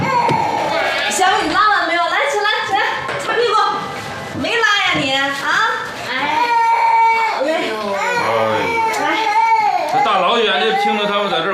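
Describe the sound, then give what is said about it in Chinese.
Small children crying: several high wailing voices overlap in loud, continuous sobs that rise and fall in pitch, with only brief dips between wails. “这大老远的听着他们在这儿哭，不知道的还以为你们这儿是托儿所呢。”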